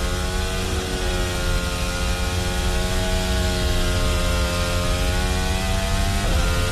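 A Formula 1 car engine screams through a qualifying lap on soft tyres at the Spanish Grand Prix, a loud, sustained, high-pitched harmonic whine whose pitch wavers slightly and shifts again near the end.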